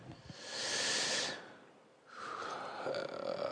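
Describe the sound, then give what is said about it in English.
A throat is cleared in two raspy, breathy bursts, the first long and loud and the second rougher and slightly softer. “I'm sorry, I just did that thing where I cleared my throat.”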